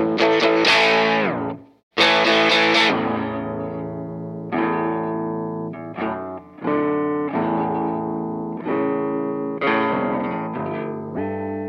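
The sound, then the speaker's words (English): An electric guitar plays through distortion and a whammy pedal. Its thick, gritty sustained chords and notes are pitch-shifted and layered with chorus-like effects, broken by a few brief gaps. “A little dirt. And then after a long hiatus, I have my whammy pedal that I like to do stuff with.”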